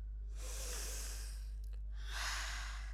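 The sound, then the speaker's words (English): Two slow, deep breaths, a long airy breath in followed by a breath out, taken during a standing breathing exercise in a classroom brain break. A steady low hum sits underneath. “Now breathe in and raise your hand above your head. Breathe out and put your hand down.”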